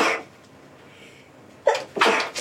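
People sneezing during allergy season: a sharp sneeze at the start, a quiet pause, then two more sneezes in quick succession near the end.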